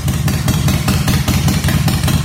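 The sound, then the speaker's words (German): Motorcycle engines warm up on Mallorca ahead of the 50th Volta Internacional a Mallorca en Moto motorcycle tour. A loud, low engine rumble throbs with regular, fast pulses and no talk. “wichtig fürs Wochenende ist auf jeden Fall schon mal zu wissen, dass die Motoren auf Mallorca warm laufen.”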